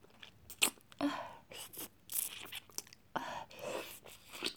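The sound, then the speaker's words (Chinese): Wet chewing and smacking mouth sounds as someone eats food and licks their fingers, with many irregular crunchy bursts of varying loudness. “我要都吃到嘴巴里，把我的手指舔干净。”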